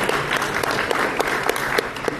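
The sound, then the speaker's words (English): Dense audience applause at the Winnipeg People's Social Forum, a steady wash of many hands clapping at even loudness throughout, with a few sharper individual claps popping out of the texture. “Can I have a round of applause because you came this morning?”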